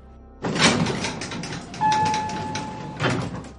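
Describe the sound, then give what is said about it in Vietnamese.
An elevator door slides open quickly with three surging mechanical rumbles. A steady high tone rings through the middle stretch. “Cửa thang máy mở ra rất nhanh.”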